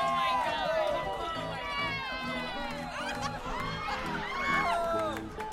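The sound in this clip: An audience reacts to a competitor in a grape stomping competition with a steady wash of overlapping voices, shouting and cheering loudly throughout.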